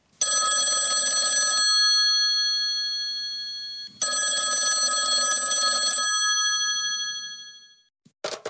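A telephone rings twice: two long, bright, bell-like trills separated by a silent pause. A brief click follows after the second ring fades.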